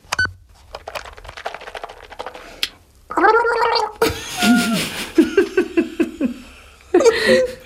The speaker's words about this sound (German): Ja, ich war ja gerade beim Zähneputzen, nicht?